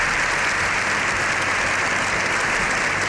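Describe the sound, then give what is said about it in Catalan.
A long ovation in the Spanish Congress of Deputies after Pope Leo XIV's speech, thick sustained clapping from a large crowd at a steady, loud level with no break. “Lleó XIV ha rebut una ovació de 7 minuts al final de la seva intervenció”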